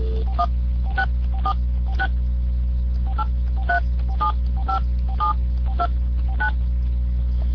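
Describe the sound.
Telephone keypad tones as a number is dialled: many short, clear beeps in a quick, slightly uneven sequence over a steady low hum, with no talk.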